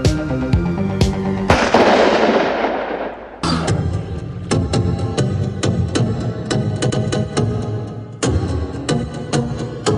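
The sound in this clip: Gunshots ring out as many sharp, loud cracks in rapid, irregular bursts across ten seconds. There is a brief dip in loudness partway through, and no talk.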